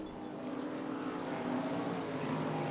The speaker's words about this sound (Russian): Слышите моторы? Словно гоняют на мотоциклах. Но это шум моторок.